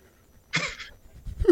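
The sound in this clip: A man coughing after smoke caught in his throat: one short, harsh cough burst, followed a moment later by a lower, rougher throaty sound.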